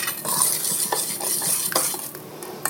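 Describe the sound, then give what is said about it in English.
Ginger being stirred into a dish, with a utensil scraping and clinking against a pot in many quick, uneven strokes that stay fairly loud and continuous throughout, no voices present. “I'm just shaking some in. And stirring.”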